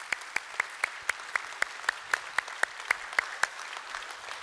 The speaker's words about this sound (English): So those of you guys who regularly attend North Garnett, would you put your hands together and just welcome them here today, those who are present?